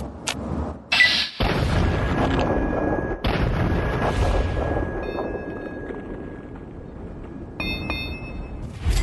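Gunfire sounds in a video game, with a few sharp, loud bangs among rumbling booms. A thin steady tone runs between the shots.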